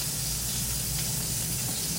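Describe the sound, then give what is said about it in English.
An egg fries in a pan inside an egg ring, giving a steady, even sizzle and hiss that holds unchanged throughout, faint and alone. “Okay, I'm removing the egg ring now because my egg has already formed.”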